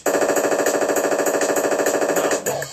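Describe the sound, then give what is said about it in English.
A machine gun sound effect fires one long, rapid burst of evenly spaced, loud shots in a steady rattle that cuts off shortly before the end. “Shoot your guns in the air. Three times in the air. Shoot your guns in the air. Machine gun.”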